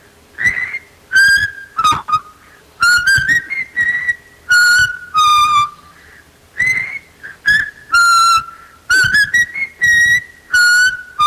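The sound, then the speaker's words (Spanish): A caller whistles an instrumental melody from 1978: loud, bright, wavering notes in many short phrases separated by brief pauses, with no other sound. “te la voy a silbar porque es un instrumental que al parecer en el 78 salió”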